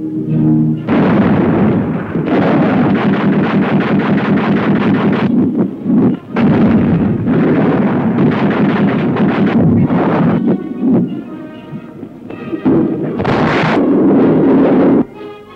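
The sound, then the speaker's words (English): Naval guns on a British wartime convoy fire at an attacking enemy bomber: repeated loud, heavy booming blasts merge into a sustained roar with gusty rumble, briefly easing between salvos. “An enemy bomber discovers the convoy, and in the gathering gloom comes in to attack. But the British Bulldog is very much awake.”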